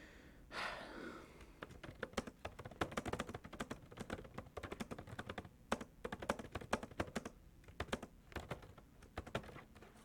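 Fast, irregular typing on a computer keyboard runs the whole time: a dense clatter of crisp keystrokes with brief pauses between bursts. No one speaks.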